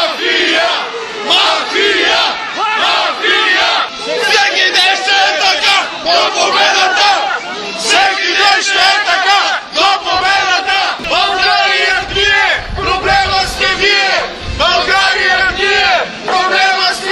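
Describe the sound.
A protesting crowd of Bulgarian citizens sings patriotic songs together at an anti-government rally, many voices carrying a melody loudly and continuously, with shouts rising over the singing.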